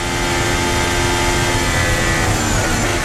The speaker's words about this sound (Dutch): Bijna vol gas, hè. Dit is echt fantastisch om mee te luisteren.